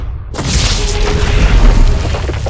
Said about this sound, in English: shattering the penitentiary doors. Three guards died in the explosion.